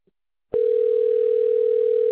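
A telephone dial tone sounds after the handset is picked up. A faint click comes first, then the steady tone starts abruptly and holds at one even pitch, loud and unbroken, to the end.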